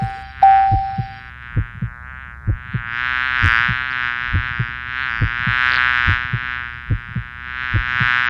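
A buzzing mosquito sound effect: a thin, wavering whine that grows fuller after the first few seconds and runs over a steady pulse of soft, regular thumps.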